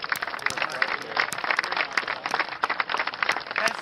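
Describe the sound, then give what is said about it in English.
An audience applauds a guest on a TV program with dense, steady clapping throughout. “Let's give Curtis a hand.”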